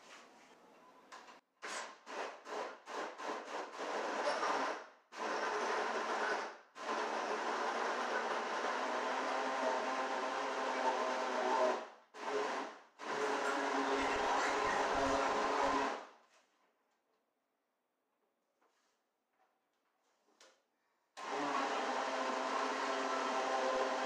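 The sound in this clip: A blender motor runs on its chop and grate settings and then its smoothie setting: many rapid short pulses of loud whirring, then long continuous grinding runs with brief breaks, a few seconds of near silence, and the motor starting again, alone without talk.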